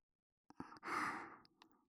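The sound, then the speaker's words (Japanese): Gentle blowing into the ear during ASMR ear cleaning: one soft, breathy puff that swells and fades after a few small mouth clicks, with faint clicks trailing after it and no speech. “お耳の中をふうふうとして汚れを取りやすくしていきますね。”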